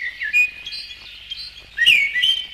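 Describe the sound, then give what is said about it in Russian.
A song thrush sings in bright, clear whistled phrases and quick chirps, with a louder, rapid burst of notes near the end. The bird is heard alone. “Птицу эту не зря называют певчий дрозд.”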